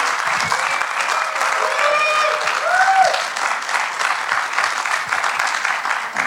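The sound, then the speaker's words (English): An audience claps and cheers to welcome a poet to the stage, dense applause with a few whistles and whoops rising above it midway, continuing steadily to the end. “So can you please make a massive cheer, welcome, all the round of applause that you can muster as we welcome to the stage and the screen the fantastic Len Penny.”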